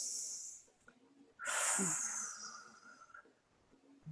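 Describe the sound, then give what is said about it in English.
Slow, deep breathing from a breathing exercise: two long, airy breaths heard alone, the second louder and longer and drawn out for nearly two seconds. “I sit with it and I do the breath work and go,”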